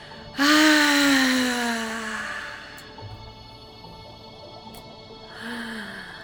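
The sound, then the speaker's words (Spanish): A forceful, voiced exhale during a breathing exercise: a loud, breathy groan that starts suddenly and slides down in pitch as it fades over a couple of seconds. A shorter, quieter breathy release comes near the end. “vamos a liberar y vamos a exhalar con todas nuestras fuerzas aquello que guardamos en nuestras profundidades.”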